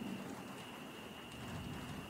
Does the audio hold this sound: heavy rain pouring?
yes